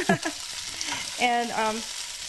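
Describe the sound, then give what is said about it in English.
Vegetables sizzle in a frying pan as they are turned with big spring-loaded tongs, a faint, steady frying hiss with a brief clatter near the start. “So now I'm going to be turning them with the tong. I think it's plural. I guess that's tongs.”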